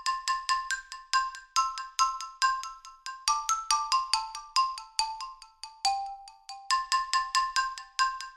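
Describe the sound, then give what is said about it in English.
A woodblock synth patch plays a simple pentatonic melody of many short, hollow, knocking notes in a steady rhythm, each with a light delay echo trailing behind, heard alone. “This track really all started with the melody that I played on the woodblock. Well, with a woodblock patch. It sounds like this.”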